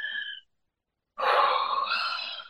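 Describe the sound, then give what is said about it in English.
A deep breath taken during a guided grounding exercise: a short airy inhale, a brief silence, then a long, loud, breathy exhale that holds steady before trailing off. “So let's all take a breath together.”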